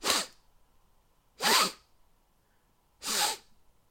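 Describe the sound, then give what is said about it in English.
A voice imitates repeated nose sniffing, mimicking a dinner date's constant habit: three sharp, breathy nasal sniffs evenly spaced about a second and a half apart, heard alone. “sniffing constantly. Like, every 20 to 30 seconds, it's sniffing.”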